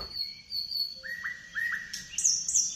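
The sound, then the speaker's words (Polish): Birds chirp in the morning: a few short, bright chirps and whistled notes, some rising and some higher and sharper, rise over a faint low rumble. No voices. “Trzeba im przyznać, że rzeczywiście się pojawiły o poranku i świergolą już.”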